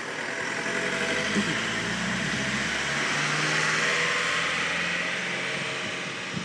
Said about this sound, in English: so sorry about the noise of the road in the background.